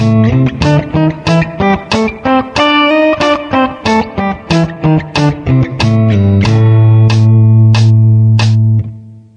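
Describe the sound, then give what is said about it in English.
Musical exercise example 15A played at a faster tempo: a quick run of many bright, sharply attacked notes in a bouncy rhythm, closing on a long sustained note that rings before stopping. “Here's 15A at a faster tempo.”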